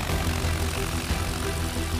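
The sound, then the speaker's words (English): Propeller drone of a crop-dusting airplane flying low, 10 to 15 feet above crops at about 120 miles an hour. The engine roars loud and steady throughout, with a constant rumbling buzz. “It requires a lot of precision and skill, because you're routinely flying 10 to 15 feet above crops like this at 120 miles an hour.”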